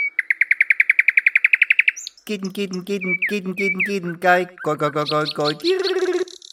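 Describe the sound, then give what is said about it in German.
A song thrush sings a rapid run of many identical high, clear notes, then a human voice follows with rhythmic, repeated syllables that imitate the phrasing of the song. “Die Singdrossel ist eine Verwandte der Amsel.”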